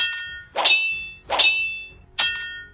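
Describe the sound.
Sabers clash with sharp metallic clangs in a sword fight. Three bright, ringing strikes land at an even pace, each decaying quickly before the next.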